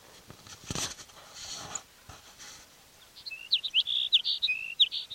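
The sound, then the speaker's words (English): A sparrow chirps in a quick burst of short, high, bright notes near the end, following a mostly quiet opening with a few faint scuffs. “Sparrow number 6.”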